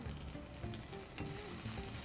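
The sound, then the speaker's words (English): A steak sears hard in a hot pan, giving a steady, dense crackling sizzle with fine spitting pops throughout, fairly faint and with no talk. “And what we're going for here is just a nice, hard sear right at the beginning. Nice crust.”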